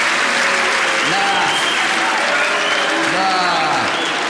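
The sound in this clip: Loud, steady applause from an audience welcoming a guest at a live show, a dense wash of clapping that holds at a constant level throughout.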